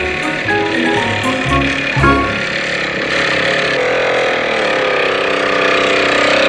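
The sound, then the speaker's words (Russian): A motorcycle rides around town, its engine a fairly loud, continuous mid-pitched drone that sounds choppy and uneven during the first couple of seconds, then settles into a steadier run. “Мотоциклист разъезжает по городу.”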